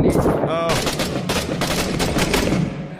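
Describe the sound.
Gunfire in a military shooter video game set in Fallujah: many sharp, loud shots crack in rapid bursts over dense, continuous noise, and a voice briefly speaks near the start.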